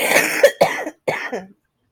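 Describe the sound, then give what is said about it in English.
A person coughs a few times in harsh, throaty bursts with short gaps between them, each one rough and breathy, ending in silence. “I'm so sorry, everyone. I thought my cough was gone, but I just haven't been speaking today, I guess.”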